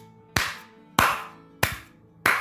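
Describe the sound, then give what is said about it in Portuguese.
Hand clapping: four single, crisp claps spaced evenly at a slow, steady pace, each with a sharp attack and a brief fading tail, clear and alone without talk. “eu podia fazer um episódio só batendo palma, bicha. Batendo várias palmas pra eles dançarem mesmo”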